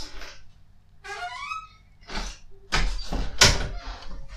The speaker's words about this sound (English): I'm going to shut the door now and let him in the kitchen.